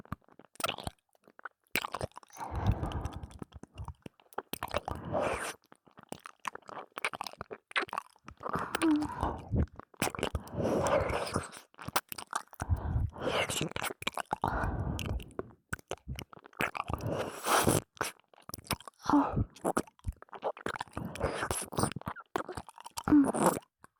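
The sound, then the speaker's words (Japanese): Close binaural chewing with tongue movements: many irregular crunchy bites and wet mouth clicks, soft and intimate, continuing in uneven bursts with short pauses. “バイノーラルだから舌が動く音までしっかり聞こえる。”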